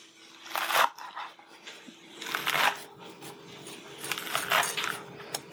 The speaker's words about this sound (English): Oh, wow, this ginger is, I need a different grater. I'm using a microplane, which is too fine for this.